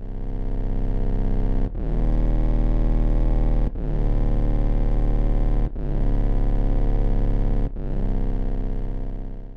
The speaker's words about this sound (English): let's imagine you have a synth sound like this one.